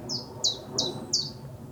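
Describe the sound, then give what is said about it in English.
Bird song in woodland: four short, high, bright chirps in an even rhythm, each a quick downward sweep, over a faint low background rumble. “What was that bird? What's that one called? Come on, sing again.”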